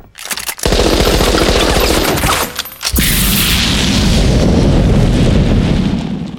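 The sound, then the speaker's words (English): Loud machine-gun fire from a bagpipe gadget fitted as a flamethrower and gun: a dense, rapid rattle that runs almost the whole time, broken by a brief gap near the middle, then a heavy roaring burst that carries on to the end. “it is the bagpipe flamethrower, and machine gun”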